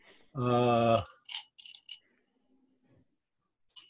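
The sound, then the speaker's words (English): An eight-sided die is rolled in a tabletop role-playing game, giving a few short, light clicks and rattles separated by quiet, after a brief sustained hum. “you gotta make a roll. Fuck. I got psychosomatic and then an 8-sided dice.”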